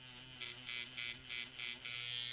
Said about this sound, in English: And then, like anyone who's about to have someone poke ink into their skin with several very long, thick needles, I set down my sound gear.